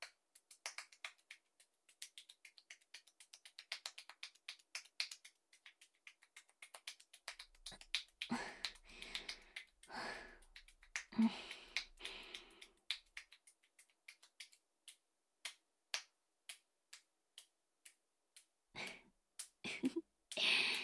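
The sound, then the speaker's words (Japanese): Gentle tapping massage on a client during a relaxing massage session: many soft, quick percussive taps in irregular runs, denser through the middle, faint and alone with no talking. “こうやって優しく叩かれるのも心地いいでしょう。”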